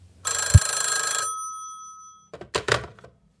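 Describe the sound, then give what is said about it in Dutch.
A telephone rings on an outgoing call: one bright, trilling ring of about a second, loud and steady, with a dull low thump partway through. Near-silence follows, then a few brief sounds at the end. “Ik ga even bellen.”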